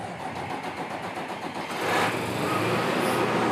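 A repaired threshing machine engine starts and runs with a steady mid-pitched mechanical drone that grows louder and fuller partway through, then holds its level with no talk.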